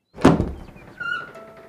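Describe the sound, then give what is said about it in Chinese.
A wooden door of a bamboo workshop is pushed open, giving one hollow knock followed by a short creaking squeak. “竹坊里的门正好被推开”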